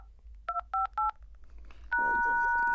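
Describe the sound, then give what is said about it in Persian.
Keypad tones as a code is entered on a device: three short, evenly spaced dual-tone beeps, then a longer steady tone that holds to the end over a low background hum. “رمز این بچه رو بزن تا اینجا رو به گن نکشیده پنج رقم آخر کد ملی تو بزن بعدش هم اثر انگشت و ورود”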